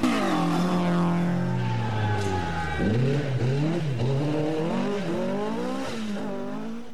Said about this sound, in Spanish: Se encienden los motores, se prende la pasión y pisamos el acelerador a fondo.